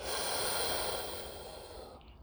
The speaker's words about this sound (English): Breathe it in through your nose. Breathe it out through your teeth.